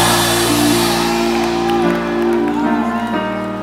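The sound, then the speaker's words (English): A church audience giving a loud, sustained shout of joy to welcome a prophet: a roar of many voices with whoops and cheers rising above it, holding strong throughout and easing slightly near the end. “So one more time, a shout of joy. Welcome to the prophet.”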